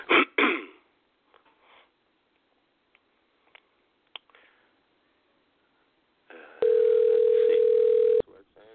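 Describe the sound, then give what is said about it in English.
A telephone dial tone while a caller is dialed manually: a steady, mid-pitched tone holds for about a second and a half near the end, after brief talk and a few scattered clicks. “I'm going to go ahead and manually dial the guy in, see how this works.”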